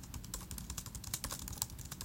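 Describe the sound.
Fast typing on a computer keyboard, many quick faint clicks in a steady run with no talk, as someone types a note to themselves.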